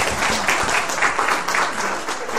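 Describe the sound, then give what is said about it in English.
Audience applause welcoming a speaker, a dense, steady patter of many hands clapping that stays fairly loud and even throughout, with no talk over it. “So without further ado, let's welcome our special Marilyn.”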